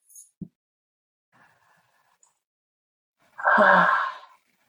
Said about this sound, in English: And now just gently take a few fuller, faster breaths. Just real gentle